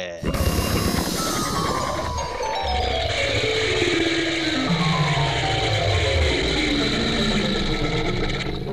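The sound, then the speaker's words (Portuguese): A jingle introducing a patent news segment, loud and unbroken, built from a long descending run of tones over a busy, ratcheting mechanical texture. “Roda a vinheta da patente.”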